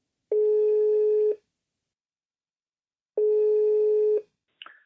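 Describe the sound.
Telephone ringback tone heard while an outgoing call connects: two steady, buzzing tones of about one second each, separated by a pause of roughly two seconds, followed by a brief higher chirp at the end.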